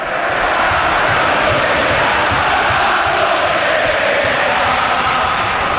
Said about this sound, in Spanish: Arranca Carlos Betella, Dani. Abro el micro, así sí. Suena Mestalla